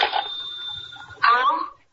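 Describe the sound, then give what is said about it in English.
A telephone rings with a steady high electronic tone for about a second, followed by a short burst of voice. “Excuse me, the phone.”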